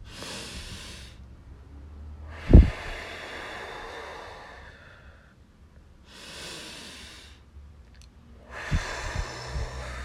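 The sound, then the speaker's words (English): Deep breathing, in through the nose and out through the mouth, comes as a few slow, soft, breathy hisses separated by quiet pauses, with no talk. “we're going to start with 3 deep breaths, right?”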